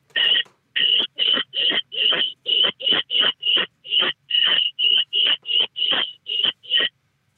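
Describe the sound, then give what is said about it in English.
Hand-blown hunting call imitating the growl of a young javelina, heard over a phone line: many short, raspy bursts in a steady, evenly spaced rhythm, loud and alone without talk. “They're going to make little, short sounds. And it kind of sounds like this. Let me get my call going.”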